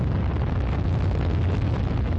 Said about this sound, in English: Engines on. 5, 4, 3, 2, 1, liftoff.